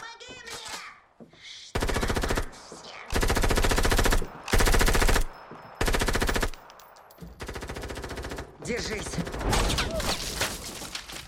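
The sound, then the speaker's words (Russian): Machine-gun fire in a film scene of a house under attack: several long, loud bursts separated by short gaps, with voices heard between them. “Огонь прекратился.”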